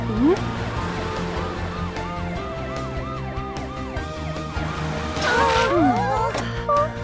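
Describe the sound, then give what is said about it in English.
An ambulance siren wailing in a quick, repeating rise-and-fall pattern through the whole clip, fairly loud, with other sounds mixed in toward the end. “the ambulance here, takes sick or injured patients to the hospital.”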